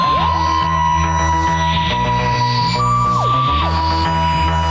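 Electronic synthesized tones in the style of the BBC Radiophonic Workshop's Doctor Who theme: loud, sustained high notes that swoop and glide over a steady pulsing bass line.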